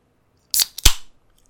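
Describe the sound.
Tab flicked on an already opened can of Hamm's beer: two short, sharp clicks in silence, a quick crack followed moments later by a louder hollow pop.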